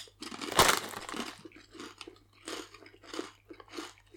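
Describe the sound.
Crunchy chewing and biting as snacks are opened and tasted, faint and uneven: a louder crackle near the start, then a string of softer crunching bites.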